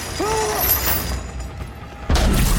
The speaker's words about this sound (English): The guard explodes in a burst of light, then appears behind Lucien, who is knocked out by two fists pulsing chi power.